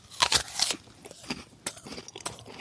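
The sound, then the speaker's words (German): Crisp crunching as someone bites into an Ingrid Marie apple: a few loud, sharp crunches at the start, followed by softer, scattered chewing crunches. “Die Äpfel selber wanderten dann von dem Christbaum auf dem bunten Gabenteller zu all den Süßigkeiten und wollen natürlich nur noch eins verspeist werden wie die leckere Ingrid Marie.”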